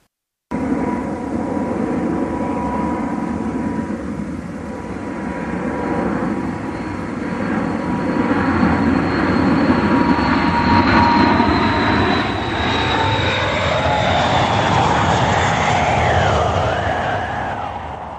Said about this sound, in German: Zu großen Ballen gebunden, fliegt sie 5600 Kilometer in die Türkei.